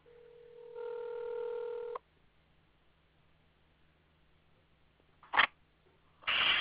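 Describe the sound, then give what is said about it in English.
Telephone keypad tones placing a call: a single steady dual-pitch beep held for about a second, then silence broken by two short noisy bursts. “Give me a moment. Let me try and call Giorgio.”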